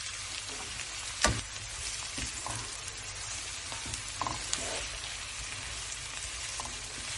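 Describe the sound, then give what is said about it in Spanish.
Chopped onion sautéing in a frying pan with a little oil gives a steady, dense sizzle with scattered crackles and small pops throughout. “Cortamos la cebolla. Lo rehogamos en una sartén con un poco de aceite.”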